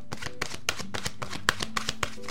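Cards being shuffled and drawn for a card reading make a run of about ten quick, light papery taps and flicks at a fairly even rhythm, with no talk.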